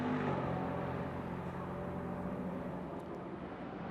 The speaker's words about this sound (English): Let's let another couple of cars go through.